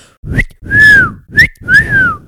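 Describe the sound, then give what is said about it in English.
Whistling on a bone whistle, played clumsily: two short rising chirps, each followed by a longer, loud, breathy tone that bends slightly up and then down, in an alternating pattern. “that's my bone whistle. Sorry, guys. I'm not very good at whistling.”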